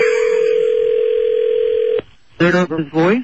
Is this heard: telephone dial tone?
yes

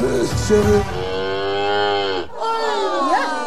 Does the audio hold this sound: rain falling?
no

